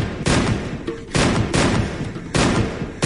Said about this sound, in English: I got my Browning out with my left hand and started firing wildly,